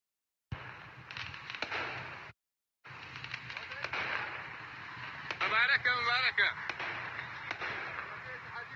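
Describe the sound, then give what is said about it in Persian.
Celebratory gunfire recorded in Sanandaj: several sharp, cracking shots scattered through a thin, band-limited recording, with crowd voices and wavering vocal cries rising in the middle. “یه صدایی از سنندج فرستادن، میگن مبارکه، نمیدونم چیه داستان، صدا تیر ضبط کردن چیه.”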